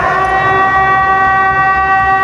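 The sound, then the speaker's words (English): Air raid sirens sound in Kyiv as missiles strike the region. A loud, steady wailing tone with rich harmonics holds a constant pitch throughout, alone with no voices. “residents in the capital city of Kyiv awoke to a series of air raid sirens as missiles struck more infrastructure in the region.”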